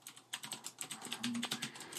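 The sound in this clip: Typing on a computer keyboard, a quick, uneven run of many light, clicky keystrokes, faint and heard alone.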